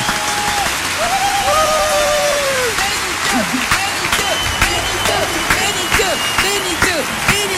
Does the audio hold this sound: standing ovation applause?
yes